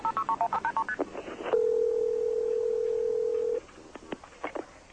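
A telephone call is dialed with a quick run of touch-tone beeps, then a long steady tone, followed by a few scattered beeps and clicks.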